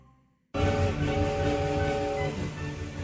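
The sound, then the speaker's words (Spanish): A departing train starts loudly after a brief quiet moment, then a steady heavy rumble continues, with sustained horn-like tones running through the first part. “¿No se les olvida nada? El tren está por salir.”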